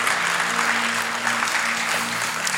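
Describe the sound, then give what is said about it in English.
Audience applause at a church sermon: dense, continuous clapping that stays fairly loud and even from start to finish. “If you're gonna clap, let's clap.”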